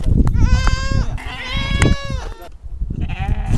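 Goats bleat among livestock being handed out, three loud, wavering, nasal calls in a row over a dense rumbling background.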